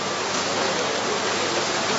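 Rain falling outside during a church gathering makes a continuous dense hiss at an even, fairly loud level throughout, with no voices audible.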